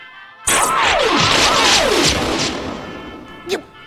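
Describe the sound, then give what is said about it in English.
A gunshot strikes a control console with a sudden loud blast and crackling impact. Descending whistling tones sweep down through the noise as it fades over a few seconds, then a brief sharp pop follows. “You shot my control console!”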